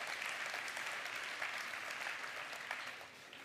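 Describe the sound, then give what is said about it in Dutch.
Audience applause at a VVD party congress: dense, steady clapping from a large crowd that holds an even level and eases slightly toward the end. “Dank u voor het applaus.”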